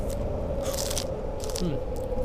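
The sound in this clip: Someone bites into and chews food in a few crunchy bursts over a steady background tone.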